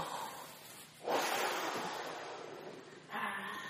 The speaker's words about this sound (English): Everybody take a deep breath. Go take a deep breath with me. Let's do it again. Let's breathe in God and breathe the devil out. One more time.